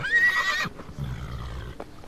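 A horse neighs in a loud, shrill whinny of about half a second, followed by lower, rumbling noise and a faint thud.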